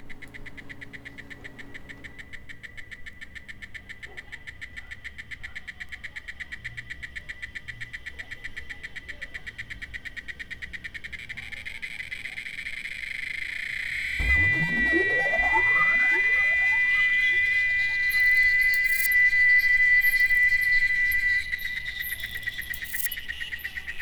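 Chirping of orthoptera insects such as crickets: a rapid, steady, high-pitched pulsing trill that runs throughout, joined partway by sweeping tones that rise and settle into a sustained whine before fading back to the trill.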